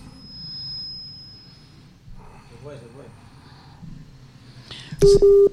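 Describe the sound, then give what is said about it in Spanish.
Incoming phone call tones as a call connection drops: short electronic beeps cut in sharply at the very end, after several seconds of muffled, garbled voice and line noise. “Se está yendo la señal, parece que le está ingresando una llamada al doctor Víctor Yontut.”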